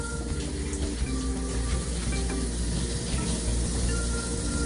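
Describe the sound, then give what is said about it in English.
Sausage broken into small pieces browns in a frying pan, giving a continuous, even sizzle and hiss that stays at a steady level throughout. “So we're gonna add the sausage real quick. Break it up into little pieces. And while that's getting brown, I'm gonna go wash my hands.”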